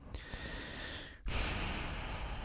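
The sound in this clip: A person takes a deep breath, an airy, rushing sound that stops briefly partway through and then returns louder and fuller.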